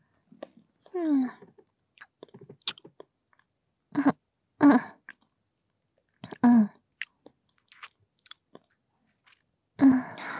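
A person eats a chocolate-coated choco pie, with soft wet chewing and mouth sounds in short bursts separated by near silence, mixed with brief hummed vocal sounds.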